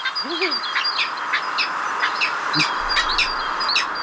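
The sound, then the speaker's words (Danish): A peregrine falcon calls in a rapid series of sharp, high, clipped notes, repeated many times at a fairly even pace. “En vandrefalk lyder sådan her.”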